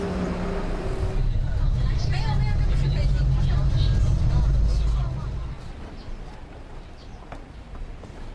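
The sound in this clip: A bus ride brings a steady, loud low engine rumble with traffic noise, holding for several seconds before dropping to a quieter, rougher drone.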